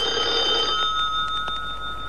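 A telephone bell rings in an office with a continuous, rapid metallic trill and steady high tones. It sounds over a constant background hiss.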